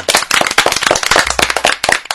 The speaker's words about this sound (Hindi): तो एक बार फिर से जोरदार तालियां सबके लिए।